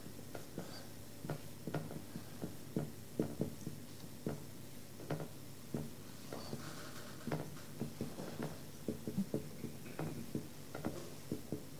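Pen strokes from writing something down make a soft, quiet patter of many small taps and scrapes in an uneven but steady rhythm.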